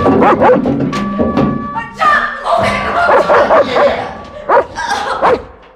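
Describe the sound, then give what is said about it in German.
A dog barks in many sharp bursts mixed with yips and short whimpers. The barks come in an uneven rhythm, loud and alone, with a thump among them. “Mein Hund ist genauso friedfertig wie ich.”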